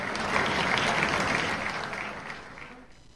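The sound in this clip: Fairly quiet applause in the United Nations General Assembly hall after a head of state's speech. The clapping is steady and even, then fades away over the last second.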